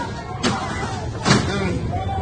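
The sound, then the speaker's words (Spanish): A disgusting piece of junk is tossed into a drawer, and then the drawer is shut. Two dull thuds land about a second apart over a low background. “Pero este trasto asqueroso no lo quiero ver. Al cajón.”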